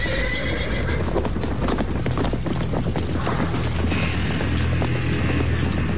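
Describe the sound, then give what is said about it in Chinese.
A horse galloping fast through mountains after dark: a dense, steady clatter of hoofbeats runs the whole way through, with a whinny rising out of the din and no talk. “郭俊清骑着快马在大山里奔驰”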